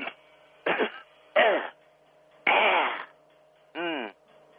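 Throat clearing from a person with something stuck in the back of the throat: about five harsh, voiced rasps separated by short pauses, over a faint steady hum.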